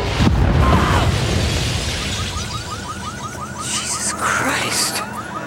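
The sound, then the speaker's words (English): A bomb explosion sound effect starts with a sudden heavy blast, then a long roaring rumble that slowly fades. A rapid series of short chirping tones and a few scattered crackles follow. “The Babylon bomb goes off in a blinding flash of light.”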